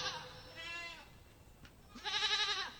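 A lamb bleats faintly in a few quavering, nasal cries separated by quiet gaps, the last cry the strongest.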